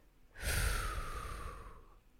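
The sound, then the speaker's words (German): One slow, airy breath from a mindfulness exercise forms a single soft, continuous rush of air lasting over a second, then fades out gently. “Einatmen und ausatmen”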